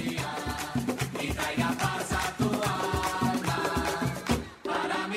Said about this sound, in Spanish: yo quisiera, Humberto, que me pongas ahí un cumpleaños feliz, por favor.